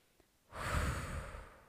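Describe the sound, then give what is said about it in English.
A single deep breath, one long airy rush that swells abruptly out of near silence, then slowly tapers while staying steady and soft, with no voices. “Let's take another breath.”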